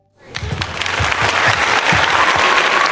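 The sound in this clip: Clapping begins after a brief silence with a few distinct claps, then quickly builds into dense, steady applause that stays loud to the end, with no voices.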